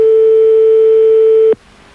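A telephone line rings during a radio call-in: one loud, steady single-pitched ring tone holds for about a second and a half, then cuts off abruptly, leaving faint hiss.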